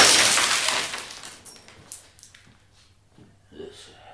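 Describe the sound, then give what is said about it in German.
Window glass smashes in one loud crash at the start, the bright shattering fading over about a second, followed by a few faint clinks of falling shards. “Ich habe gerade ein Fenster eingeschmissen.”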